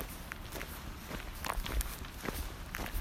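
Footsteps walking along a road: many soft, steady steps over a constant background hiss.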